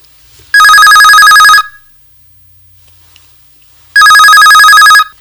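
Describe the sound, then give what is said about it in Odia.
Telephone ringing for an incoming call: two long, loud bursts of bright, trilling bell-like ringing separated by a silent pause of about two seconds, heard alone with no talk. “ତେବେ ଆସନ୍ତୁ, ଆଉ ଡେରି ନ କରି ନେଇଯିବ ଆମର ପ୍ରଥମ phone call.”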